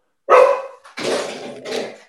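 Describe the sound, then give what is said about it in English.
A dog barks: one sharp, loud bark, then two softer, drawn-out barks with a slight whining edge. No other voices. “your dog wants to eat you or something.”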